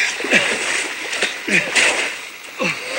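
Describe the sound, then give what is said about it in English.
A person and a horse splash into a stream. Repeated bursts of sloshing water rise and fall over a constant rushing flow, with brief vocal sounds between the splashes. “He falls off his horse and rolls into a stream.”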